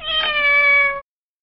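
A small, dirty cat gives a single clear meow lasting about a second, steady in pitch and fairly loud, with nothing else around it before silence.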